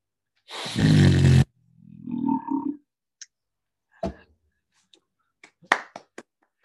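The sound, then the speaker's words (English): A person imitates a lion's roar with one loud, rough, sustained growl lasting about a second, followed by quieter vocal sounds and a few sharp clicks. “My superpower is that I can actually impersonate a lion, right? So I'm just going to empty this out and I'm just going to do that for you right now. Okay, are you ready for this? I don't want to break the microphone, but listen to this, okay?”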